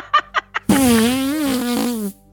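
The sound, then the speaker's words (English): Fart noise imitated by a woman blowing into her bare arm: a few short raspy puffs, then one long, loud, buzzing blurt that holds a fairly steady low pitch with slight wobbles before cutting off. “and just sounding like just horrific farting noises”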